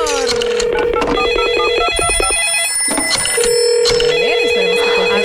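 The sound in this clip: Telephone ringing as a radio station calls a contest winner, with repeated electronic ring tones sounding loudly through a dense, busy background mix.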